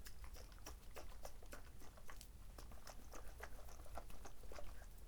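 A drink container is shaken before being opened, giving many quick, irregular rattling and sloshing pulses. The shaking is faint and continues throughout, with no talking.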